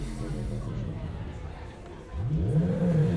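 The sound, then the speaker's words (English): A small electric motor from a 1980s portable cassette player, spun by hand, gives a low throbbing, pulsing hum that swells and bends in pitch over a murky background. “This one is out of a little portable cassette player from the 80s, and that's a computer cooling fan. And basically, if you spin a motor, every time the coil goes around, it creates a pulse. And you get kind of throbs and...”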